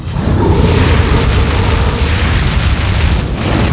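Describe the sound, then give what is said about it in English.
A dragon breathing fire, played as a sound effect during a tabletop fantasy role-playing battle: one loud, dense roaring blast that rushes on without a break and stays strong throughout. “And now, the dragon's turn. This dragon is going to take advantage, and he's going to breathe his fire amongst all of you here.”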